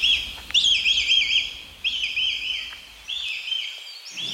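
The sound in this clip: A red kite calls near its nest, excited by nearby visitors: three bursts of high, thin, wavering whistled calls, evenly spaced, over a faint low background rumble.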